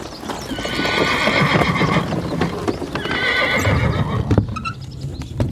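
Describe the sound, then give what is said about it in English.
Hooves clip-clop steadily from a carriage drawn by four black horses, with two loud, drawn-out horse whinnies rising over the continuous hoofbeats. “Would you like a lift? In a spooky carriage with four black horses?”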